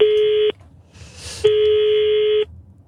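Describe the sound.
Telephone line tones as a number is dialed: two steady, buzzing electronic tones, the first about half a second long and the second about a second, separated by a short pause.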